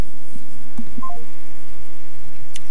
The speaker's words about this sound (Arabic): يبدو أن انقطع الاتصال